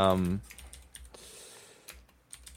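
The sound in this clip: Keystrokes on a computer keyboard while a letter is typed: faint, scattered clicks at an uneven rhythm, following a brief voice at the very start.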